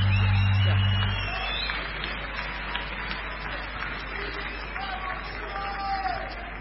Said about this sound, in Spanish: Aplauso al charanguista número uno del país, señor.